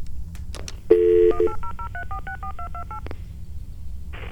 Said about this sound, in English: And so now we're going to call 1-800-DINGBATS.